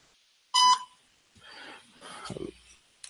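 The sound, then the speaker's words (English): A voicemail beep on a phone call: one loud, short, steady electronic tone, followed by a few softer, muffled noises. “Please leave your message for... So that's a voicemail.”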